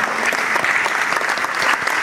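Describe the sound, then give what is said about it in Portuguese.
An audience at a church service applauds the media team with dense, steady clapping that holds an even level throughout. “Vamos aplaudir essa galera, pessoal.”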